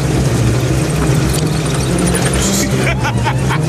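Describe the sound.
A Humvee engine runs with a steady, low, rumbling drone throughout. Murmuring voices blend into the background over the continuous mechanical hum.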